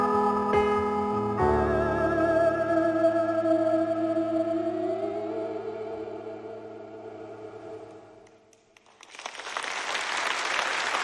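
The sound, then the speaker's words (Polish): Applause at the end of a live song: sustained musical tones fade away over about eight seconds, a brief near-silence follows, then dense, loud clapping fills the final two seconds. “Piosenka z oklaskami.”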